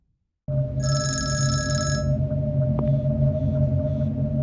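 A telephone rings once with a bright, trilling electronic ring for about a second and a half, then stops, over a steady low hum and a constant mid-pitched tone that continue throughout.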